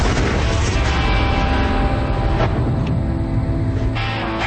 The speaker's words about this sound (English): So we built a big rolling bomb instead of a rocket.